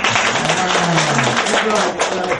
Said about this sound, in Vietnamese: Cái này câu hỏi hay, cho tràng pháo tay.